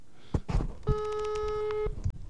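An outgoing telephone call rings unanswered: a single long, steady electronic ring tone sounds alone for about a second, framed by a few brief thumps and rustles.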